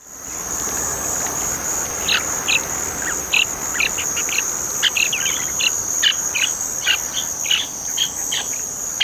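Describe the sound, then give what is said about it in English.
A pine warbler sings in many short, high bursts of notes, scattered irregularly over a loud, steady, high-pitched insect drone that runs throughout. “Pine warbler.”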